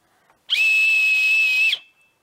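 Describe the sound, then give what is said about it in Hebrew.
A single whistle blast, a steady, piercing high-pitched tone held for just over a second, clean and alone against silence. “נכון, שרקתי במשרוקית.”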